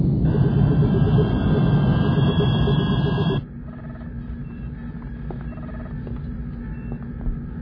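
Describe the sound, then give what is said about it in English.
Engine roar of the Galactica shuttle coming in to land: a loud, steady rushing roar with a high whine on top, which cuts off abruptly midway into a quieter, low steady hum. “Galactica shuttle returning from the rising star. You are cleared for landing.”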